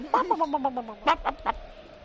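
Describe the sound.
Hens cluck in a rapid run of short, nasal pulses over a sliding lower tone, then give a few sharper, louder calls.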